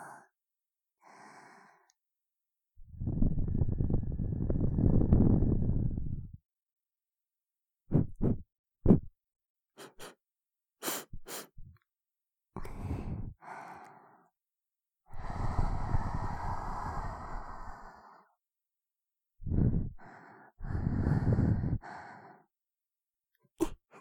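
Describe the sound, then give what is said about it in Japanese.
Close breaths and sighs are blown right onto a microphone: a few long, breathy rushing exhales and shorter puffs, separated by silent gaps. “アイドルの吐息や鼻息を聞くだけでも、絶頂できるんだよね。ほーら、マイクに息かけちゃうぞ。”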